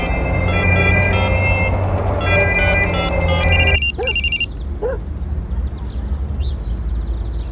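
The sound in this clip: Telephone ringing on an outgoing call: a steady, loud electronic ring tone with repeated bursts that cuts off abruptly partway through, followed by a few faint, short, high beeps over low noise.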